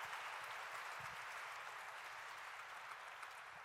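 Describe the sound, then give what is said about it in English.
Audience applause fills a live event stage moment, a steady, even wash of clapping that stays faint and constant for a few seconds without breaks. “Rich Roll, everyone. Let's make some noise for Rich Roll.”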